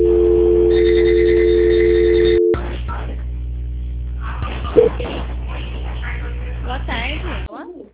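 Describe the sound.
A telephone ringing tone plays while a bank call is transferred: a steady, loud tone holds for about two and a half seconds, then drops away to line hum as voices begin talking over the connection.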